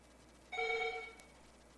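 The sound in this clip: An incoming call rings on a telephone in a radio call-in studio. One steady, bright electronic ring tone sounds, then a pause, then the start of a second ring. The ringing is fairly quiet and no one talks.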